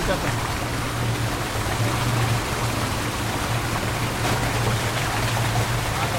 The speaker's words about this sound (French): Cette eau qui arrive là, de par ce tunnel, est une des eaux qui sert à alimenter Paris en eau potable.